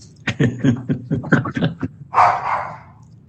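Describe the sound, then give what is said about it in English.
A dog barks during a remote commission meeting: a quick series of short, sharp barks, followed by one longer, rougher bark. “Sorry for the dog.”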